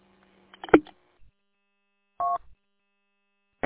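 Telephone keypad dialing tones: a few short, separate beeps with silence between them, fairly faint, with no voices.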